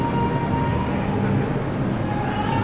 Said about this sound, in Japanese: タイムズスクエア駅に到着しました